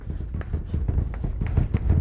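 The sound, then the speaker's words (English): Hand-drawing a little star, an asterisk: a quick series of short, scratchy writing strokes at a fairly even pace, several in a row, soft and light. “You know, draw my little star, an asterisk.”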